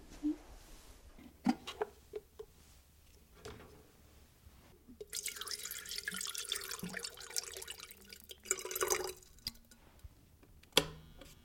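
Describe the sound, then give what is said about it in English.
Hot water pours for late-evening decaf coffee, a sustained splashing rush in the middle, set between soft drips and light clicks. “I have some decaffeine coffee, so it's great for this kind of late evening. You want some? Okay. Let me boil some water.”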